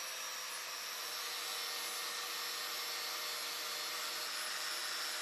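Angle grinder work on a pipe, removing the oxide layer before welding for a connection to a ball valve: a steady, unbroken grinding roar with a bright hiss that holds level throughout, with no talking.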